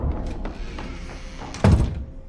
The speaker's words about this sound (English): Eli shuts the garage door.